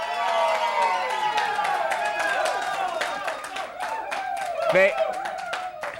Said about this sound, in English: We have a very rowdy audience tonight, and there's a reason for that.